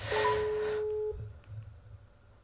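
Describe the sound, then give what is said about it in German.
A telephone ringback tone plays over a speakerphone as an outgoing call rings: one steady, fairly loud tone lasting about a second, then a faint line hiss. “Ich rufe sie jetzt mal an. Sie weiß jetzt natürlich nicht Bescheid, ich weiß auch nicht, ob sie rangeht. Versuch mal. So, warte, ich mache hier mal auf laut.”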